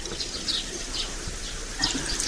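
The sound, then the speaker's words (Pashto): Warm water is poured over hands for washing with soap, making a steady, even splashing hiss at moderate level with a few brief, louder gushes. No voices. “اوبه نیسه لاسونه دا صابون هم در واخله زه به ګرمې اوبه در واچوم”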